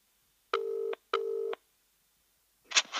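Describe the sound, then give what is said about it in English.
Two telephone keypad dialing tones, each a steady, clean beep about half a second long with a short gap between them, followed by a brief soft rustle as someone prepares to place a call. “We could try calling him now. Right now? Yeah, yeah, he gave me his number. Yeah. Let me get my phone up.”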